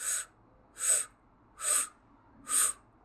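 Breath is drawn in through pursed lips, as if sucking through a straw, during a breathwork exercise. Four evenly spaced, airy, hissing inhales sound alone with quiet pauses between them.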